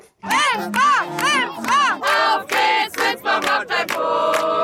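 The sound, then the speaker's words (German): Loud crowd shouting and cheering at the Winsbach Kirchweih fair on the Kirchweihplatz during afternoon fair games. Many voices rise together in repeated bursts, then merge into a sustained chorus at the end. “So klang's am Nachmittag auf der Winsbacher Kerwa auf dem Kirchweihplatz.”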